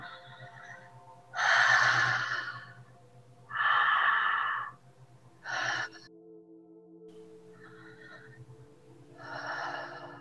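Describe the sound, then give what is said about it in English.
Mouth breathing in a beginners' conscious breathwork demonstration, with gentle inhales and relaxed exhales. A few airy breaths come and go, some full and loud, others short and faint, separated by quiet gaps over a low steady hum. “You inhale through the mouth and exhale through the mouth. So you pull in on the inhalation and then relax on the exhale. So like this.”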